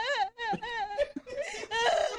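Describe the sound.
A young girl crying: high, wavering whimpers and wails in short breathy bursts with brief catches between them, fairly faint, rising into a harsher sob near the end.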